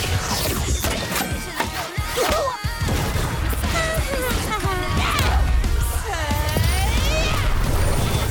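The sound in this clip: Gunshots go off in a chaotic scene: a couple of sharp bangs cut through a loud, busy mix of whooshes, crashes and wavering voice-like tones.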